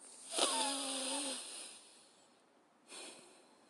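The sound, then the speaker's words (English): Deep, audible breaths during a breathing exercise: one long, wheezy breath with a faint tonal edge, then quiet, then a second, shorter breath. “what this exercise does when you breathe in and out deeply”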